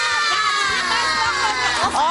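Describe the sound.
Children cheering and shouting together in a crowd at a children's program, a busy, continuous mix of high excited voices that stays fairly loud for about two seconds.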